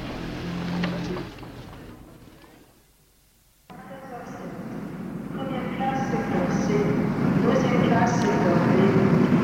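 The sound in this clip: Rumbling railway ambience at a train station, with a low rolling drone, faint squeals and clatter, and indistinct murmuring voices. A brief quiet gap gives way to a steadily louder, denser wash of train noise.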